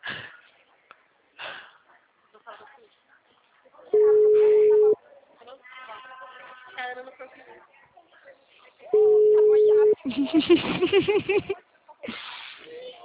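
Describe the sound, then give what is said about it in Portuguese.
Telephone ringing tone while calling a client: two steady, mid-pitched one-second tones separated by a few seconds of silence, heard under and between people talking. “Eu tô tentando ligar. Tô ligando pra cliente. Ah, tá chamando?”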